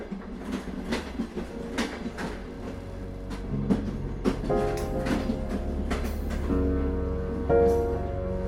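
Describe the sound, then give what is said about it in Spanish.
A train locomotive runs through a tunnel with a continuous low rumble and many rhythmic clicking wheel beats. A humming tone joins in the second half. “Así el maquinista, con su sombrero desgastado y rostro afilado, guiaba la locomotora a través de un sombrío túnel”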